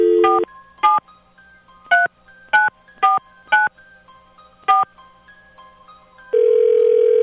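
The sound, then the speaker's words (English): Touch-tone telephone keypad beeping as a number is dialed, seven short separate tones at uneven intervals, followed by a steady sustained tone on the line. No voices. “Dialing at random.”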